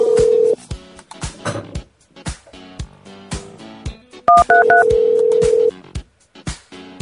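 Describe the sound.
Telephone tones sound just before a voicemail system answers a call: a steady electronic tone, a quick series of short higher beeps, then a longer held tone, broken up by soft clicks.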